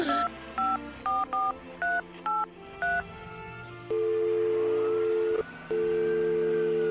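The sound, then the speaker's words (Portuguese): Telephone keypad tones as a number is dialed to call the police: a quick series of short, even beeps, then a long steady tone that breaks briefly and resumes. “Vou ligar agora mesmo.”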